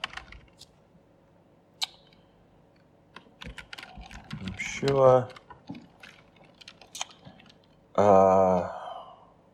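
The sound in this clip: Computer keyboard typing as someone writes a letter: scattered, uneven key clicks at low level, with short bursts of people talking over the tapping.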